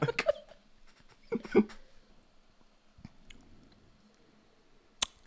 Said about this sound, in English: Those are my tasting notes. Lip smacking.